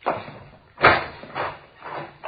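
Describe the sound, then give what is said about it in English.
A door is opened and shut, heard as a few soft, dull knocks and thuds spaced out at an uneven pace, fairly quiet and with no voices. “Hey, here, I'll get the door.”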